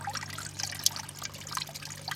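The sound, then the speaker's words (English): Water in an archaeological flotation tank cascades from a large top pool down from bucket to bucket, making a faint, steady trickling and splashing with no talk. “You've got a huge pool at the top, probably about, I don't know, a metre by a metre, and then it cascades down from bucket to bucket, like a waterfall.”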